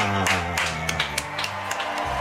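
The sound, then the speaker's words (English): A star-studded audience gives a standing ovation at an awards ceremony. Their clapping shows as scattered sharp claps over sustained music. “Debbie receives a standing ovation from the star-studded audience.”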